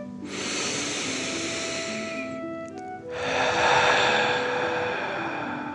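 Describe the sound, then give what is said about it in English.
Deep dragon breaths during a guided relaxation: a long airy inhale through the nose, then a stronger, rushing exhale blown out through the mouth, each lasting two to three seconds. Soft, steady tones sound beneath the breathing. “let's take 3 more deep dragon breaths. Deep breath in and out.”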